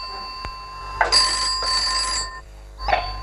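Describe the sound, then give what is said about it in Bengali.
A telephone bell rings in two bright, loud, sustained bursts, one right after the other, after a single sharp click. A short shuffling noise follows. “ওই phone”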